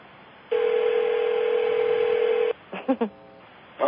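A telephone conference line is opened: a steady tone holds for about two seconds, then a few short electronic beeps follow.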